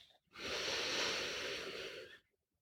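One deep breath drawn in during a guided meditation: a soft, steady, airy rush of inhaled air lasting about two seconds, heard alone.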